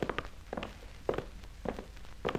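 Footsteps walking down a narrow passage: a few faint, slow, evenly spaced steps with soft double-tapped thuds and no voices.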